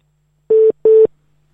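Telephone busy tone sounding after a call is cut off: two steady, evenly spaced beeps of the same mid pitch, loud and alone, then silence.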